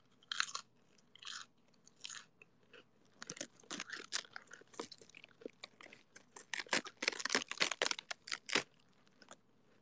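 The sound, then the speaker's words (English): Lettuce is ripped apart in many crisp, crunchy tearing and snapping bursts. The bursts come sparse and separated at first, then turn denser and louder toward the end before stopping. “Can you guys hear the lettuce ripping?”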